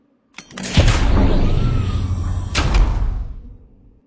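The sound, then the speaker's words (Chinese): An escape pod door slowly closes with a drawn-out mechanical rumbling slide. A low thud comes near the start and another near the end before the sound fades away. “独孤月将袋鼠推入逃生舱，缓缓关上了门。”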